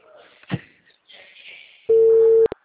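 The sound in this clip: A telephone line tone sounds while a call is being placed. It is one loud, steady tone at an even pitch that holds for about half a second, then cuts off with two sharp clicks. Faint background noise and a brief thump come before it.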